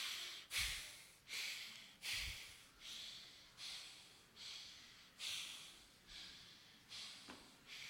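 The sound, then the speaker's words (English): Fast, rhythmic breathing during a psychedelic breathwork session, through nose and mouth in a full three-part breath: a faint, evenly spaced series of many airy, forceful breaths with no talking. “Breathe through your nose, through your mouth, fast, slow, to the chest, to the navel. Full three-part breath.”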